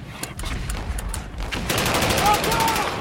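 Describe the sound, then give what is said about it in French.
German machine-gun fire as an attack is launched in wartime: many sharp, rattling shots in fast rhythmic bursts, sparser at first and then dense and continuous over a low rumble. “C'est les mitrailleuses allemandes, ils lancent l'attaque.”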